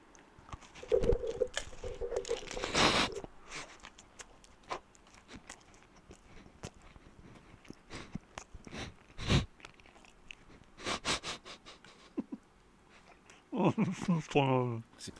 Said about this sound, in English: you really polished that mince pie off.